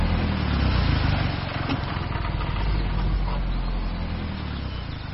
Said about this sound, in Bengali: সাপের মতো প্যাঁচালো সরু রাস্তা দিয়ে গাড়ি ছুটে চলেছে।